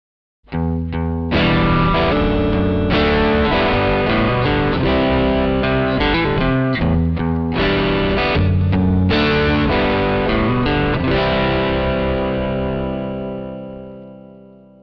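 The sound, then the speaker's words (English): Electric guitar through a DS-1 distortion pedal plays many loud, heavily distorted chords with a thick, buzzing tone, ending on a sustained chord that slowly rings out. “DS1 Distortion.”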